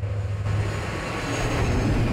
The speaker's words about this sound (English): A plane lands on a runway.